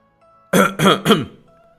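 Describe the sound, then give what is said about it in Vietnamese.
Dry, harsh coughing in three quick, loud bursts, each rough and breathy, standing alone against a quiet background. “Lâm Bất Điển nắm tay trùng trùng điệp điệp ho khan một tiếng.”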